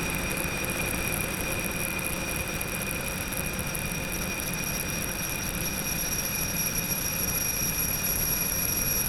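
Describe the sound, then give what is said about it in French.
Jet airliner engines run at go-around thrust, a loud, continuous roar layered with steady high-pitched whines that holds unchanged throughout. “Remise de gaz.”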